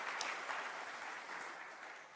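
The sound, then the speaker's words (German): Applause at a congratulatory celebration: a faint, steady, dense wash of clapping with no distinct single claps, holding an even level throughout. “Ja, ich klatsche jetzt.”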